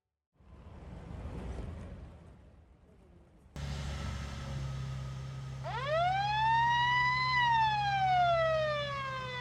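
A police car siren wails over a rumble of vehicle noise, sweeping up in pitch, then slowly falling, loud and sustained.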